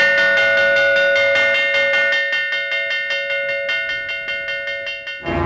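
A gong is beaten to start a contest, struck in many rapid, evenly spaced strokes. Each hit rings with a bright, sustained metallic tone that overlaps the next, and a sudden noisy burst cuts in at the very end.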